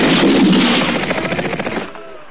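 Gunfire from a firing squad: a dense, loud volley of shots that settles into a rapid rattling series of cracks and then fades off near the end.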